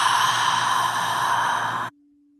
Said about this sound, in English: And together, I invite you to inhale again through your nose. And then open mouth exhale.